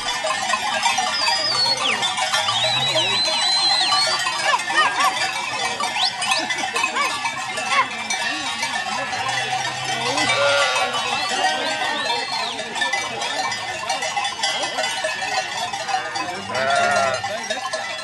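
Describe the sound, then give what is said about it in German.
A flock of sheep in the Schnals Valley of South Tyrol: bells clank and jingle continuously, with a few deeper bleats rising out of the steady jangle. “Man hört eine Schafherde im Südtiroler Schnalztal.”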